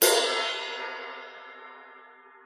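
An unlathed, unpolished ride cymbal is struck once on its own. It gives a bright, washy crash that rings out with a long, steadily fading shimmer.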